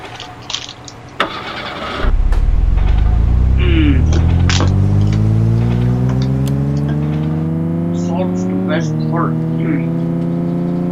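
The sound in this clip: A race car engine in a video game running on Windows 98 starts up after a few short clicks and revs, its whine climbing steadily in pitch for several seconds, then dipping briefly as it shifts before rising again.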